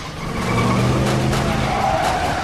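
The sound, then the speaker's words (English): A getaway car speeds off with tires skidding during a shootout: a loud, steady roar of engine and tire noise that fills the whole moment without a break. “As Jack and Curtis return fire, Marwan is driven away.”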